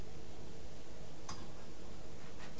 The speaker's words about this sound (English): A clock.